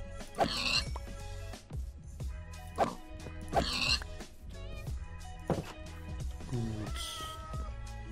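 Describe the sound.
A cat meows repeatedly, several short, high, bright calls spread over the span, with a voice heard at times in between.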